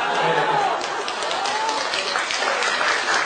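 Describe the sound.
Audience applause at a radio event at Yeungnam University, a steady wash of clapping with voices mixed in, fairly even in level throughout.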